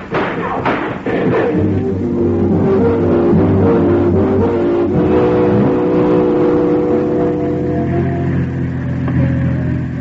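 A car drives off and accelerates: a few thuds at the start, then an engine roar with a strong, steady tone that climbs as it builds speed and stays loud to the end, alone with no talk.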